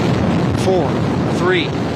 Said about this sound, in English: RS-25 engines lit.